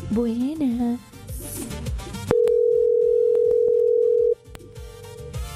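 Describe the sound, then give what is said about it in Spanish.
A telephone rings on an outgoing call to a radio listener, heard as a single long, steady ringback tone lasting about two seconds. It follows a stretch of people talking and is cut off abruptly. “acuérdese que yo dije que íbamos a llamar a los oyentes. ¿A quién le vamos a marcar?”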